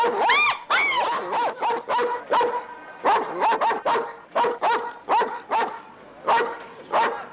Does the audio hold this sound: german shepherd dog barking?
yes